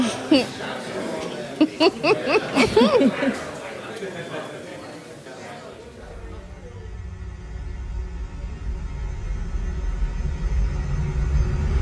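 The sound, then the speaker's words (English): A car driving, heard as a low, steady engine rumble that takes over after a few seconds of people talking and laughing. “Or we could just drive there.”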